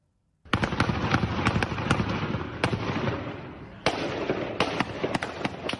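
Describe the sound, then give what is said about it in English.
Gunfire from gunmen shooting on a street in a regional capital: many rapid, sharp cracks in dense bursts, running almost continuously for over five seconds with a brief lull near the middle. “Gunmen opening fire on a street in the regional capital, Mahachkala.”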